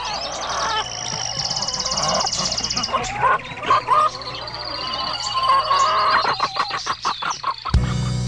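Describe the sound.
Farm animal sounds with a dog barking and chickens clucking, layered densely together in a busy, continuous mix that breaks off sharply near the end.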